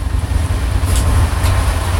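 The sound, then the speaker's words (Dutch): The 3FM Serious Request van drives from Den Bosch with its engine revving, a loud, heavy low rumble that holds steady and swells slightly in the middle. “Dit is de bus van 3FM Series Request. Of ja, de bus, het busje. We zijn aan het gassen van Den Bosch naar de nieuwe locatie van 3FM Series”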